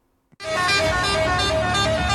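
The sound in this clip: Vehicle air horn honking in traffic for a wedding, one loud, steady, brassy blast that cuts in after a brief click and holds unbroken for about two seconds.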